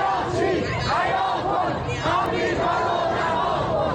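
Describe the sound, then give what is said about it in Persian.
A crowd of regime supporters outside the Foreign Ministry office in Mashhad chants slogans in unison, a loud, rhythmic massed roar of voices that continues throughout. “شعار شماری از هواداران نظام در مقابل نمایندگی وزارت خارجه در مشهد که شنبه شب به تهران هم رسید.”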